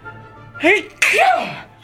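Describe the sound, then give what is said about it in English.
A woman sneezes in a hotel restaurant: a rising, voiced intake swells into one sharp, loud burst that trails off quickly, with no talk. “Suddenly, she sneezes.”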